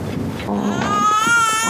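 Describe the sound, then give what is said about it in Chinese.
An infant cries in a loud, sustained wail with a bright, tonal pitch, beginning after a brief low rumble and continuing steadily to the end. “来， 不哭不哭啊，妈妈抱。”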